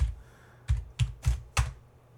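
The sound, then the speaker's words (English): Keys on a computer keyboard are tapped while typing a search: five distinct keystrokes with soft low thuds, spaced irregularly over a quiet background. “Okay, I got that, typed that in quite wrong.”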